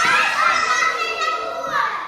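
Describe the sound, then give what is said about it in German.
A group of children screams together during a self-defence drill as an instructor lunges at them: a loud, sustained, high-pitched chorus of shrieks runs without a break and swells again near the end. “Plötzlich springt sie auf die Kinder zu. Alle schreien.”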